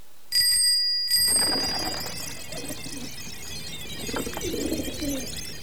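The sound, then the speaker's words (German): A bicycle bell rings with two quick, bright metallic strikes, its high ringing tone trailing off into a soft, low background murmur. “Immer wenn die Fahrradklingel klingelt, blättern wir eine Seite um.”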